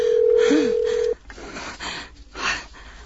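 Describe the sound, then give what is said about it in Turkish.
A phone's ringing tone as a caller waits for an answer: one steady, fairly loud tone holds for about a second, then cuts off, leaving quieter background noise. “Hadi aç şu telefonu, aç.”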